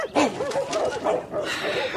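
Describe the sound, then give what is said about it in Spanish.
House dogs bark and yip in several short, lively bursts, a mix of bow-wow barks and higher whimpering yelps that fills the whole clip. “¡Pillo estos perros de porquería! ¡No dejan dormir!”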